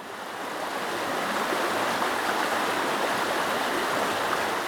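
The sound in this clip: Water flows in a stream as a steady, broad rushing that swells in over the first second and then holds evenly, with no voices.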